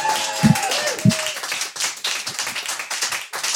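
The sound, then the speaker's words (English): Audience applause at a Valentine's Day stage show: two sharp, loud claps at the start, then a dense, sustained wash of clapping that carries on to the end. “Everybody give it up.”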